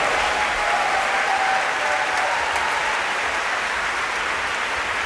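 Concert audience applause at an early-music summer evening concert at the Festival Oude Muziek Utrecht, a loud, dense and continuous roar of clapping that holds steady throughout.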